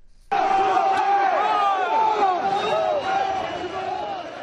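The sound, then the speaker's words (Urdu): Protesters in a city square in central Brussels chant anti-immigrant slogans. After a moment of quiet, a loud mass of shouting voices bursts in abruptly and keeps up a raucous, rhythmic chant. “سرگرم کارکنوں نے تارکین وطن مخالف نعرے بلند کیے اور نازیوں کی طرح سلوٹ کیا جیسے ہی وہ سٹی اسکوائر پہنچے۔”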